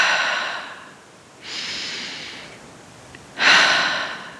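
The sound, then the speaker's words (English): Slow guided breathing, air drawn in through the nose and released out through the mouth, forming three soft, airy breaths separated by short pauses, with the last exhale the strongest. “Inhaling through the nose and out the mouth.”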